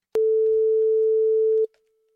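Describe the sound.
A telephone line tone while a call is being placed: one steady mid-pitched tone lasting about a second and a half that stops abruptly and leaves silence.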